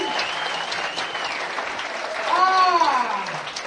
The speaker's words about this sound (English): Put your hands together for Annie, everybody!